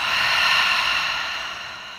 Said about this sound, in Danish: Tag den her dybe indånding gennem næsen. Og udånding gennem munden.